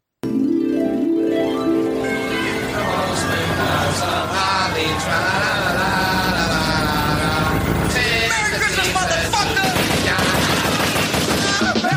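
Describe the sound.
Dense, rapid gunfire from a drive-by shooting sound effect rattles on without pause, loud and continuous throughout, with sustained tonal sounds mixed in underneath.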